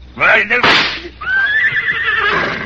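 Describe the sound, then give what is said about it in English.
A horse whinnies in a long, high, wavering neigh that trails off slowly, heard after and under excited voices talking loudly. “the horse! He's run away, the horse, to the jungle!”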